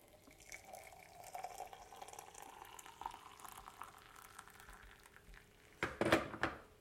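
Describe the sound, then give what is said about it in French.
Water is added to a pot holding large lumps of sugar, starting as a quiet, steady trickle and ending in a brief burst of louder splashing. “Et après, j'ajoute de l'eau.”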